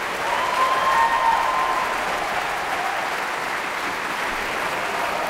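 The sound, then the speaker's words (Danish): Dense, steady applause from a concert audience as the sections of a radio orchestra stand one by one after Tchaikovsky's Third Symphony in the Berlin Philharmonie. The clapping is loud and even throughout, with no talk. “Og bifald til de forskellige instrumentgrupper, der bliver rejst en for en.”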